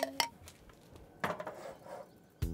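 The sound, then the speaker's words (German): A pot of butter, lemon juice and vegetable stock, covered with a clay lid, is set on a stove, giving a few sharp metallic clinks and knocks separated by short pauses. “Dazu noch Zitronensaft und Gemüsebrühe. Das kommt jetzt auf den Herd, damit die Füllung gar werden kann.”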